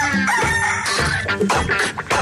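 A rooster crow forms part of a radio station jingle, with the crowing set within dense, full music.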